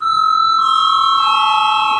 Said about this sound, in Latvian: Lūdzu, zvanu.